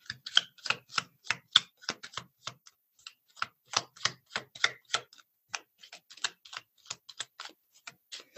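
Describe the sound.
Playing cards being shuffled by hand at a table before a card reading, heard as many crisp, rhythmic clicks and slaps in quick runs separated by brief pauses, clear and alone.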